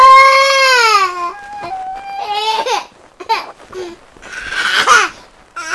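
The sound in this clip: A fussy baby cries loudly in a few wailing bursts with short breaks between them. The cries rise and fall in pitch and end on whimpering sobs.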